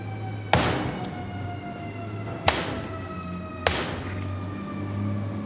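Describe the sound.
Firefighters from the Santa Cruz Fire Department break down a door with three heavy, sharp thuds at uneven intervals. A low steady hum fills the gaps between the blows.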